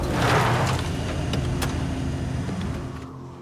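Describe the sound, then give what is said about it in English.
An ATV pulls up outside a motel: a steady motor rumble and hum with a few faint clicks, easing slightly and quieting near the end. “The ATV draws up outside the motel.”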